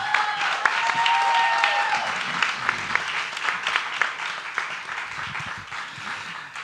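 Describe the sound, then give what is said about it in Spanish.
Audience applause for three musicians: a sustained wash of clapping from many hands, loud at first and easing slightly toward the end. “por favor, un aplauso a estos tres musicazos.”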